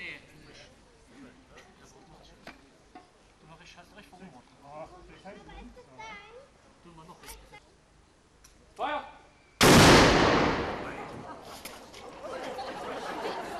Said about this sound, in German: Nach der Fahnenweihe und der Übergabe gab es im Anschluss noch ein Schießen vor dem Wolkensteiner Schloss.